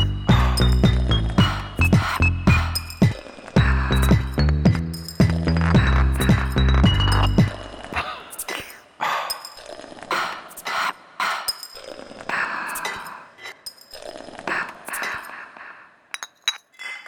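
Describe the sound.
Beer glasses clink in a toast, with many bright, ringing clinks crowding the first half before quieter rustling and scattered knocks follow.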